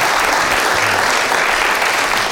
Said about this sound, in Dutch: Dames en heren, hier is Daisy. Applaus voor Daisy.